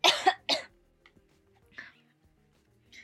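A person coughs sharply a few times in quick succession, then after a pause clears their throat with softer, shorter bursts.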